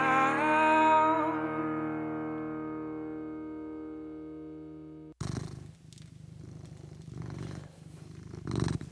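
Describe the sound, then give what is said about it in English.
A cat purrs in a steady, rhythmic rumble with repeated breath-timed pulses. It follows a sustained, buzzing harmonic electronic tone that stops abruptly. “you're with me and my cat, Morrissey, the good-looking and pleasant to be around.”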